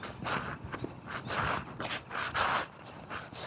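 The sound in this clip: Footsteps of a person walking while holding a phone and recording, a steady rhythm of soft scuffing steps mixed with breathy rustling noise.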